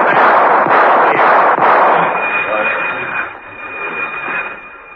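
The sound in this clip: Warning gunshots fired down a corridor: a few sharp cracking bursts in quick succession, loud and harsh, then the noise fades into a lingering wash with a thin, steady high whine.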